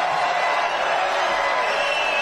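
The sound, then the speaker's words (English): A political rally crowd in New Hampshire chants USA: a loud, dense roar of many voices that stays level throughout. “Crowd loving it. Feeling it. This is the mood of America. There's the USA chant. You love hearing that.”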